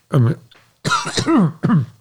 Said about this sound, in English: excuse me, my throat is getting all clogged up.